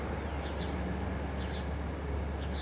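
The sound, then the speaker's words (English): House sparrows calling, with a few short, high chirps that come in brief clusters over a constant low background rumble. The birds are faint and no one speaks. “I can hear the house sparrows calling.”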